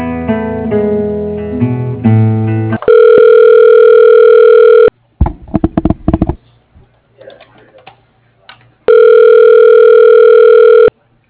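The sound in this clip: Telephone line transfer tones as a call is put through to a voicemail extension: a short run of shifting electronic beeps, then two long steady tones separated by clicks and faint rustling.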